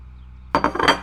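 A plate with toast is set down and dishes clink: after a quiet start come a few sharp, bright clinks and knocks of crockery and cutlery close together.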